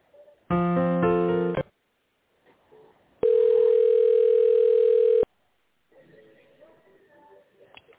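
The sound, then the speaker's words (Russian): Telephone ringing tones while a call is transferred on hold: a bright electronic burst of several pitches lasting about a second, a pause, then a long steady tone of about two seconds, with faint low sounds between. “оставайтесь на линии, соединяю”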